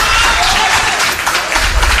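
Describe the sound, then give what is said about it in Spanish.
An audience applauds in a council chamber during a municipal session, a loud, dense and steady clapping that fills the whole moment. “lo que ha provocado aplausos entre el público asistente, que fue expulsado en ese momento de la sala por orden del alcalde.”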